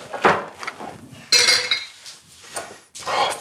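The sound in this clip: Dishes and kitchen utensils clatter as they are tossed aside in a kitchen during cooking, with burnt bars nearby. A few loud, sharp clinking bursts come in irregular rhythm, separated by quieter gaps.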